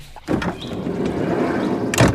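Someone climbs into a VW Bulli van through its sliding door. A sudden rolling, rumbling slide runs for over a second and ends in a short, sharp bang.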